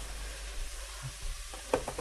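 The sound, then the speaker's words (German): Fresh tomatoes, about 200 grams, sizzle in a hot pan with a steady, moderate frying hiss. A brief clatter breaks through near the end. “Da tun wir jetzt frische Tomaten rein.”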